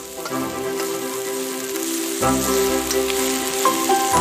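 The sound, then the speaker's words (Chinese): Loud, steady sizzling of diced chicken stir-fried with wild onions, minced garlic and sour chilies over high heat, a continuous crackling hiss that swells slightly partway through. “随后加入野葱，大火快速翻炒，”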